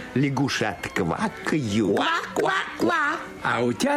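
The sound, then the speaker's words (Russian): A voice imitates ducks quacking, giving a string of loud, nasal, repeated quacks in quick rhythm with short pauses between bursts. “крякают. Кряк-кряк-кряк.”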